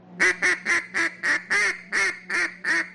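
An old-style duck call imitating a duck, quacking nine times in an even rhythm, each blast loud, nasal and buzzy.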